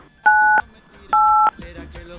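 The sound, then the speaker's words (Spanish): Telephone keypad dialing tones: two steady dual-pitch beeps, each about a third of a second long and separated by a short pause, with a third tone starting at the very end over low background sound. “vamos entonces a teclear en el teléfono el código comadre, por favor, 985.”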